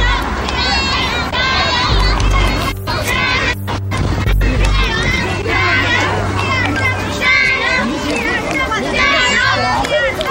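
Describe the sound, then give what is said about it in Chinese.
Spectators cheering runners along a marathon course: a loud, steady crowd hubbub of chatter and shouts, with children's voices mixed in throughout. “有人在加油。挺好。”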